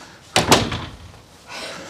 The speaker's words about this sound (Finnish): Mä laitan tuon oven kiinni, näette paremmin.